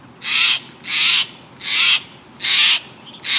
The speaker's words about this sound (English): East of the Rockies, your visitor's quite likely a blue jay. Out west, you're probably seeing a Steller's jay.